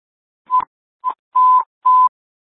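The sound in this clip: Fire dispatch alert tones for Engine 3 sound as four steady, mid-high electronic beeps at one pitch. The first two are short, the last two longer, with clear silent gaps between them.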